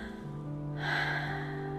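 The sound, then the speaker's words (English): A voice imitates very slow breathing for a bedtime story about characters competing to breathe the slowest: a quiet start, then one long, airy, drawn-out breath that stays soft and even. “And every night they would see how slow they could breathe. See who could be slower. They'd go. Dipey would go.”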